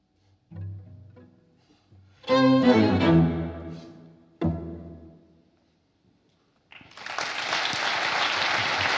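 Concert audience applauds at the Hôtel de Crillon in Paris after a Debussy cakewalk piece; the final musical notes ring out and fade, and after a short pause dense, sustained clapping swells in and continues to the end.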